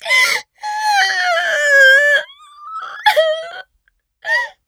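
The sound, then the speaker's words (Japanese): A person cries and sobs in high, drawn-out wails broken by short catches of breath, ending with a brief final whimper. “なんで泣くん。”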